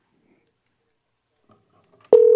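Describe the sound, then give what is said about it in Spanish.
A steady telephone line tone sounds during a call to a market administrator. It starts suddenly near the end after faint rustling and holds loud and unbroken to the close. “A ver, vamos al contacto. Estamos llamando al administrador del mercado, ¿ya?”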